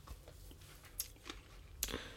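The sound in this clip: Faint crunching as homeopathic sugar globules are chewed: a few sharp, brittle crunches among quiet mouth sounds, with no talking.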